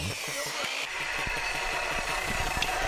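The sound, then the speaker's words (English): A 35-year-old air compressor runs steadily to drive a nail gun during roof framing, producing a continuous engine-like drone with regular knocking pulses at a constant level. “cutting blocking using a nail gun driven by a 35-year-old air compressor that you hear quacking in the”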